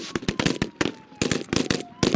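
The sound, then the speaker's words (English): Gunfire rings out during a mock terrorist kidnapping exercise, many sharp, loud cracks in rapid, irregular clusters with brief gaps between volleys. “Suddenly, shots fill the air. It's a mock terrorist kidnapping of a government official.”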